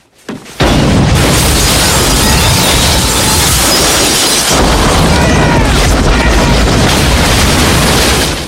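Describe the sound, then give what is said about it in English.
Explosions rip into a bank. After a brief quiet start, a sudden loud blast opens into a sustained, roaring barrage of crashing noise that stays loud until the end. “explosions rip into the bank.”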